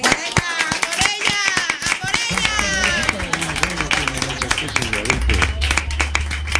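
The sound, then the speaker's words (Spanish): An audience at a stage show breaks into brisk applause, with sharp, dense clapping loudest in the first couple of seconds, then continuing more thinly as a voice talks over it. “Hostia puta, esto se merece un 10, ¿eh? Bueno, un aplauso.”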